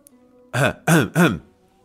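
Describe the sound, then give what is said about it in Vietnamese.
Throat clearing from a narrator voicing a character, three short voiced bursts in quick succession, the first starting after a brief pause, fairly loud and alone with no other talk. “hắng giọng”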